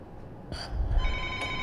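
Telephone ringing for an incoming call: a short bright ring is followed by a sustained electronic ringing tone with another brief burst, all over a low rumbling hum.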